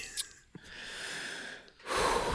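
Heavy breathing from a person catching their breath, opening with a short snort-like burst, then a long sustained rush of breath and a louder, harsher breath at the end, with no talking.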